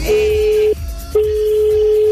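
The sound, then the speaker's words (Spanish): Ringback tone from a telephone call being placed: a steady, even mid-pitched tone that stops briefly and then resumes, over a busy, continuous background. “estamos llamando a alguien. Vamos a ver si contesta.”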